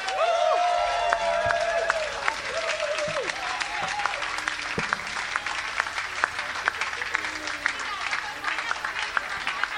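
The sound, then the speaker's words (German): Applause from an audience welcoming a Santa Claus act: dense, steady clapping that runs loud and unbroken from start to finish. “Ein Applaus für Santa Claus!”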